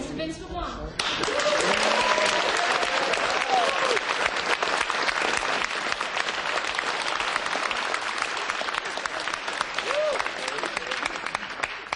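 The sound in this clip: Applause welcoming Vince McMahon at the Oxford Union: dense, loud clapping from a large audience that holds steady and continuous throughout.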